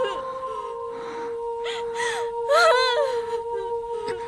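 A person whimpering and crying in short, shaky vocal bursts, most intense midway through, over a steady sustained musical tone.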